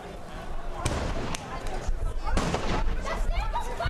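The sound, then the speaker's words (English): Sharp pops of tear gas canisters fired by police in riot gear during clashes between far-right activists and Arab Israelis in a northern Israeli town. A few irregular bangs cut through a constant crowd din. “Those are tear gas canisters you hear firing.”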